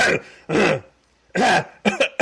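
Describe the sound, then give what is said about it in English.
Deliberate coughing in a run of loud, harsh bursts separated by brief pauses, with the last few coughs coming quicker and choppier. “I'll start coughing and stuff, just to see who turns around.”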